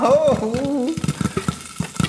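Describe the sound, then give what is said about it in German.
Homemade popcorn popping in a pot: after a brief voice at the start, a few sharp, irregular pops crackle through the second half. “Wann poppt denn der Popcorn endlich? Oh, es ploppt.”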